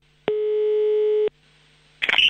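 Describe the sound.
A steady telephone tone of about one second sounds while a prank call to a speech therapist is placed. A short silence follows, then a brief burst of sound at the end.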